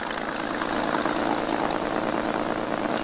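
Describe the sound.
Continuous engine drone of a motor launch carrying four marines on the open sea, an even, humming, mid-pitched running note with a low vibrating rumble beneath and no voices.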